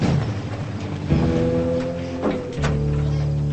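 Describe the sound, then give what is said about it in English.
A pickup truck door opening, a couple of solid thunks and shifts over a steady low droning hum, with no voices. “The pickup parks and she runs outside as Joe opens the vehicle's door.”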